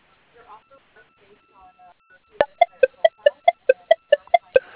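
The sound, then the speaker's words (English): Telephone keypad dialing tones, a rapid, evenly spaced series of sharp electronic beeps, loud and alone, following a stretch of quiet voice. “Okay, dialing.”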